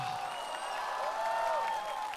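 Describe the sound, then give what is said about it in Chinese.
Audience applause and cheering for singer Dou Jingtong after her song, a dense, steady wash of clapping that holds at an even level and swells slightly near the end, with faint tonal ringing woven through it. “来，掌声给窦靖童。”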